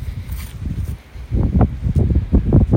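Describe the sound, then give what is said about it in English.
Wind blowing through a graveyard on a chilly day, gusting in low, rumbling bursts that buffet loudly, with a brief lull before stronger gusts return. “It's chilly. And the wind is really blowing.”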